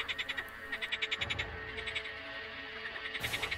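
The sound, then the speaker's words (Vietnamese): A large black frog with red eyes croaks in a fast, even train of rasping pulses that repeats many times. The pulses soften midway, then return, over a low steady background hum. “Con ếch lớn màu đen có cặp mắt đỏ nhảy vào bụi cây ngay gần đó”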